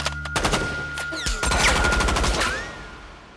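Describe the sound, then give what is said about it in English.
A Tommy gun firing rapid bursts of .45 caliber rounds, a loud, dense rattle of many shots that runs almost unbroken, then fades toward the end. “The lightweight weapon can unleash 100 rounds of 45 caliber ammunition in less than 10 seconds.”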